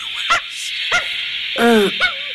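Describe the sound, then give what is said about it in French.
Dog barking aboard a lunar rocket: a few short, sharp barks and one longer, whining yelp over a constant high hiss. “Vous avez entendu ? C'est leur chien”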